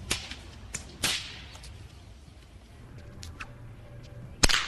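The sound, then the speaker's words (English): Sharp cracks of a big bullwhip swung by a man walking in the middle of a street; a few loud, abrupt snaps at irregular intervals, the strongest at the end, with quiet background between them. “Then I saw a guy walking up Park Street one day in the middle of the street, and he had this big bullwhip, and he was just cracking it walking up the street.”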